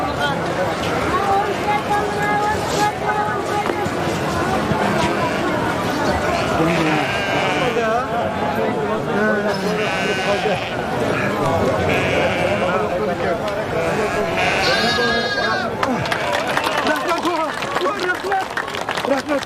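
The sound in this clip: Sheep and lambs of a new breed from a breeding farm bleat repeatedly, many overlapping calls mixed with continuous chatter from people talking nearby.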